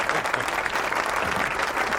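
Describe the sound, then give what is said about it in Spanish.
Audience applause at a live event as a guest is welcomed to the stage: dense, steady clapping that holds at an even level for the whole two seconds. “Un aplauso, por favor.”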